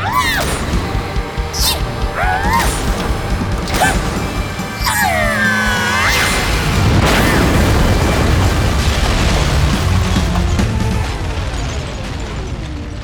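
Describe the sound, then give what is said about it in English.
Death lasers fire in a sci-fi battle, with warbling, sweeping zaps over loud rumbling explosions and crashes that fill the whole stretch. “Okay, time to fight. Fire death lasers.”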